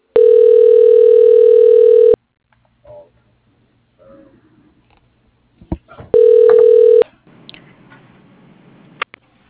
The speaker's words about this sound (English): Please stay on the line while your call is transferred to the operator.